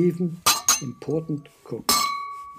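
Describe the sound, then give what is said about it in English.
Clattering pots and jars fall over and roll around inside a kitchen spice cupboard: a few sharp glassy clinks with ringing tails, the last one loudest, heard between bits of narration. “That is the sound of pots and jars falling over and rolling around inside the cupboard.”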